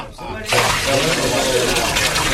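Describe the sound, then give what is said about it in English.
Water gushing as barrels are poured over a bullock, wood and an altar, a sudden loud rush that breaks in after a short lull and keeps pouring steadily. “Pour four more barrels of water over the bullock, the wood, and the altar.”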